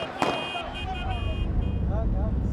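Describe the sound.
A car driving through the ruined city of Omdurman, Sudan, gives a continuous low engine and road rumble beneath a person talking.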